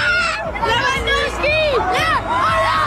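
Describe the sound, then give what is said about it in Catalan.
A huge crowd roars through a street parade in central Barcelona celebrating FC Barcelona's league title, a loud, continuous wall of overlapping voices with many shouts, whoops and high cheers rising above the dense babble throughout. “750.000 persones, segons la Guàrdia Urbana, desborden durant 5 hores al centre de Barcelona per la rua de celebració del títol de Lliga del Barça. Públic embogit.”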